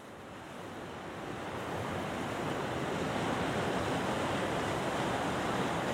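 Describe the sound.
Waves wash over rocky tide pools in a continuous broad rush that swells slightly at first and then holds steady and loud, with some wind noise mixed in.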